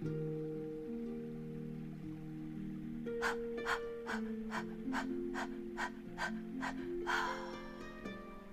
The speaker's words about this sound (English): forceful breaths out your mouth with the ha sound, like so. So we'll breathe in to clean, and we'll breathe out to clear. 10 breaths.